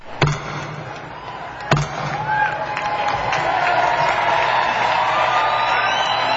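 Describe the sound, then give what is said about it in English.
A gavel opens the four-day Democratic National Convention in Denver with two sharp, separate knocks over crowd murmur. A loud, steady crowd roar then swells and holds until the end. “Party Chief Howard Dean officially gaveled the four-day gathering to order, where the faithful are expected to rally round and nominate Barack Obama to be the party candidate for the White House.”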